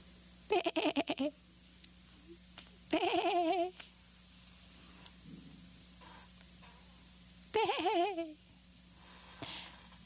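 A sheep bleats three times in loud, wavering calls with pauses between them, then gives a fainter sound at the end over a low steady hum.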